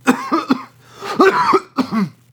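A few harsh coughs in short, loud bursts, with some throat-clearing quality, heard alone without talk.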